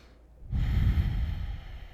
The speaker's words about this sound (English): Breathe deeply into the lower part of your chest. Send your breath further down into your belly, lower back, and hips.